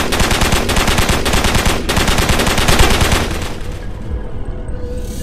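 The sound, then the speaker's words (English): Machine gun fire in loud, rapid, unbroken bursts for about four seconds. The rattling then breaks off and leaves a fading tail of noise. “Blacker finished off what was left of the charred meat by blasting into it with his machine gun”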